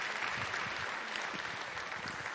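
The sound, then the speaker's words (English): Audience applause for volunteers, a steady, dense wash of clapping that holds an even level from start to end with no voices standing out. “By the way, let's applaud them for volunteering, so we didn't have to stay here.”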